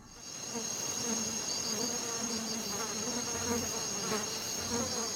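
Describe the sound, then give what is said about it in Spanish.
Insects buzz in a dense, continuous drone with a thin high whine riding above. The hum fades in quickly, then holds steady and fairly loud with small wavering pulses and no other sounds. “Los insectos bajo el microscopio.”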